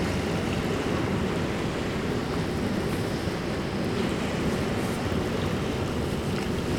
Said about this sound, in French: Laissons-nous bercer par la marée.